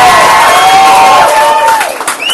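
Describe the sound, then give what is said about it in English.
Loud cheering and applause from the audience at the 2010 Scottish Alternative Music Awards, with long shouted whoops over a steady wash of clapping that eases slightly toward the end. “I'd like to give a big round of applause for a very special guest, Mr. John Gateway, for helping us with the prizes.”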